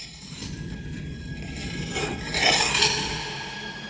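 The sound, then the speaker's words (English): A blade edge is ground against a sharpening block in a continuous dry rasping scrape that swells louder past the midpoint before settling back. “gently grinds the edge of the blade against the sharpening block.”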